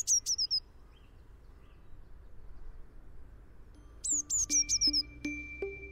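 A bird gives a brief, trembling trill: a quick burst of high chirping notes, then after a pause a second rapid run, with faint low tonal pips underneath. Quiet overall.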